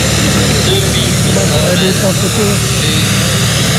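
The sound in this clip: Tractors watering the track at a racecourse race meeting give a loud, continuous engine drone, with indistinct voices mixed into the steady noise.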